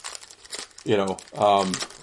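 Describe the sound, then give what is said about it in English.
A 1991 hockey card pack wrapper crinkles as it is opened: a few short rustling bursts, followed by two drawn-out vocal sounds from a person. “Let's open these hockey cards first.”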